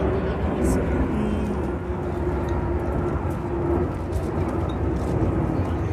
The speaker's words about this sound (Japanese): 低空飛行してるあれは何かなジャンボじゃないけどでも旅客機的な